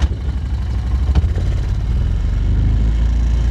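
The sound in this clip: An ATV is shifted into first gear: one brief clunk sounds near the start, then the low engine rumble settles into a steadier, slightly louder drone.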